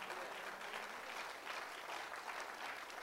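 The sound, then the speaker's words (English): A church audience applauds with faint, continuous hand clapping, a dense crackle of many hands that holds steady throughout without a clear rise or fade. “Thank you for that hand clap.”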